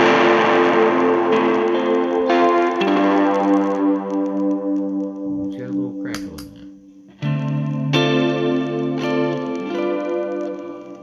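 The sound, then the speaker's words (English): Electric guitar through a modulated reverb pedal: several chords are struck and left to ring, each decaying into a shimmering, wavering wash, with a new chord entering partway through. “is a modulated reverb.”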